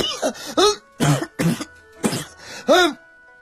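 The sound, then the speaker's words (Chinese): Someone choking and coughing after biting into a steamed bun with an unexpected spicy chili filling. About six hoarse, voiced, hacking coughs and throat-clearing bursts come in an irregular rhythm, with short pauses between them. “你这包子怎么里面还搁辣的？呛我直咳嗽”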